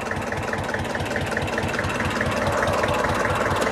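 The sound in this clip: A car engine idles steadily just before the car pulls away, giving a low, even, throbbing rumble at a constant level throughout, with no talk.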